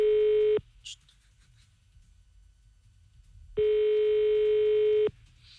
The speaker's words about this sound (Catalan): Tornem a trucar a les coques de Tarragona.